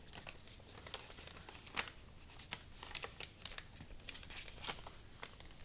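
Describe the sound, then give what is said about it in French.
A square sheet of paper being folded in half gives many faint, crisp crinkles and rustles, irregular and spaced across the whole stretch. “Donc voilà, je plie le carré en deux.”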